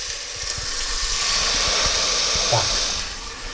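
Steady hiss and sizzle as game broth goes into a hot pot already holding plum povidla and sliced gingerbread, broad and fairly loud, swelling through the middle, with a few low knocks underneath, then easing off near the end.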